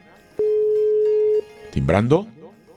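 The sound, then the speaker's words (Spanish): A telephone rings on an outgoing call that goes unanswered: one steady, low tone lasts about a second, then a voice begins speaking. “Timbrando. Nada.”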